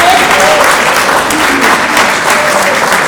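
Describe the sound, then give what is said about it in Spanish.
Applause for teachers at a gathering: dense, loud clapping from many hands that holds steady for the whole stretch with no clear pauses. “Un aplauso para estos”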